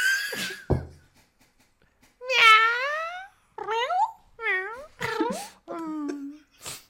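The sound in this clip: A voice imitates a cat meowing, giving a series of several drawn-out, wavering meows with short gaps between them, mostly alone after a brief bit of sound at the start.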